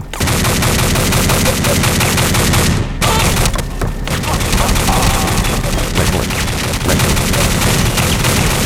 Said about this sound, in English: So yeah, someone's trying to shoot at me.